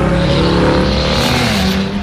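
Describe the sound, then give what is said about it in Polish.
Engine roar from a loud car with an aftermarket exhaust on a street, a steady, heavy, droning rumble that holds strongly for the whole stretch. “Niestety wszyscy słyszą ten hałas uliczny, który zmaga się wraz z cieplejszymi dniami i musimy szukać rozwiązań tego problemu.”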